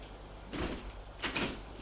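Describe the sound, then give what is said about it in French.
A door clicks open, released by an intercom: two short muffled clunks about half a second apart, faint and alone. “La porte fait un déclic. Elle entre.”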